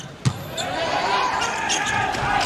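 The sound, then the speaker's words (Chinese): A volleyball thumps once on the court as the outside hitter bounces it before serving in an indoor match. The bounce is sharp and short, over a steady, loud crowd din. “主攻手张雨山来发球”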